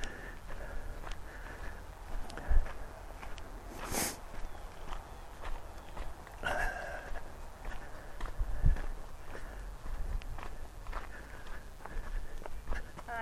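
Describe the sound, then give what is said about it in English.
Footsteps of a person walking down a woodland trail make steady, soft crunching steps that continue throughout, with a few louder knocks mixed in. “Here comes one more person walking down the trail the opposite direction.”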